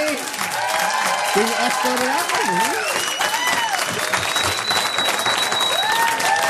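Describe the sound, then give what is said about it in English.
Studio audience giving a talk-show guest an ovation: loud, sustained applause with cheering voices and a whistle rising over the clapping throughout. “A very nice ovation from our audience.”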